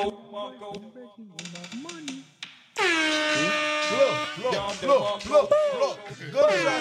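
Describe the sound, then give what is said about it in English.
Loud air horn blaring partway through: a sustained, harsh tone that runs to the end after a stretch of talking. Excited voices keep talking over the blast. “you have an air horn here?”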